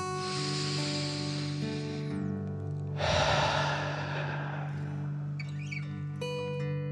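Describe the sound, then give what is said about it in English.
Slow, deep breathing in and out like a dragon's, with a long airy exhale standing out midway, heard alone over soft sustained music. “breathe like a dragon, in and out.”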